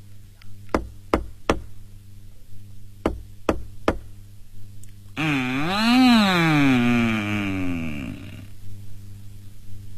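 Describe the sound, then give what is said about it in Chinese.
Knocking on a household's door: two groups of three sharp raps separated by a short pause, followed by a long, wavering, groan-like sound. “唐三藏下了白龙马，前去一户人家敲门。”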